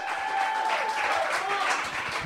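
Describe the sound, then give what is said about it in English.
Audience applause for a stand-up comedian being introduced: a steady, dense wash of clapping that lasts about two seconds, with some vocal cheering mixed in. “Ladies and gentlemen, put your hands together for the very funny Ryan Shute, everybody.”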